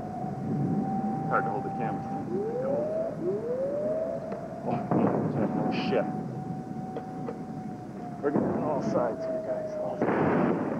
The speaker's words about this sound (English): That one's gonna hit Riyadh again. Boom, there it goes. I'm gonna get the concussion now.